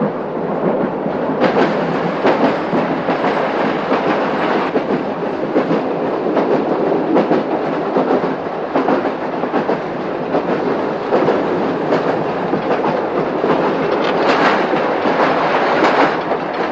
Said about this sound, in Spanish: Ya de noche el tren enciende su faro delantero. Dentro del vagón todos duermen, unos en litera y otros en el suelo.